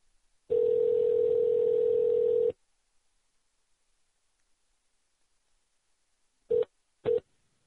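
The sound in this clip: Telephone dial tone from a call-back: a steady, loud tone lasting about two seconds, then silence, then two short dialing beeps.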